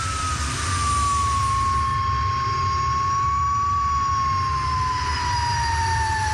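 A Le Mans race car engine driven at high speed, around 140–150 km/h, gives a loud, sustained roar with a steady high whine over a low rumble. The sound holds throughout with no voices.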